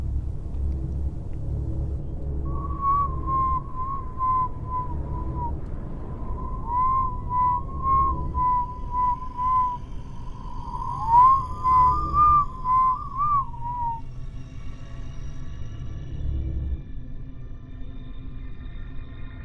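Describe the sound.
Eerie whistling in the dark inside a house believed to be haunted: a wavering mid-pitched whistled tune in three drawn-out phrases over a steady low rumble, then the whistling stops and only the rumble remains.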